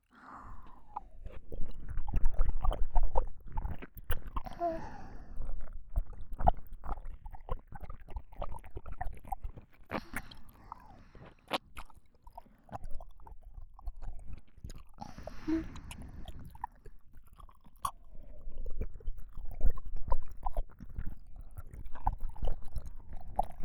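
Someone eats and chews food for a long stretch, with many moist, crunchy bites and smacking sounds repeating in an irregular rhythm, alone without talk.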